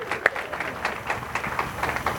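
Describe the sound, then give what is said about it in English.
Scattered audience applause at a live show, with a few light, irregular claps that stay fairly faint and brief. “Thank you very much. Give him a hand. Give him a hand.”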